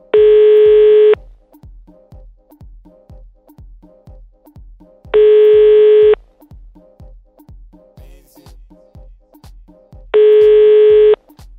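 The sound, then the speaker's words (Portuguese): A telephone call rings on the line: three long ringback tones, each about a second, repeat at even intervals, with a faint regular ticking pulse between them. “Então nós vamos ligar pro Fernando, saber qual que é do Fernando.”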